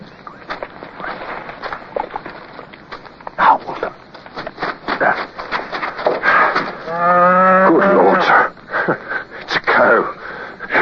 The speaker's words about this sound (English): pass the word that there are cows about. If you and I almost took this one for the enemy,